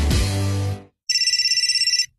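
A telephone rings with a rapid electronic trill, pulsing quickly and evenly at a high pitch for about a second before cutting off.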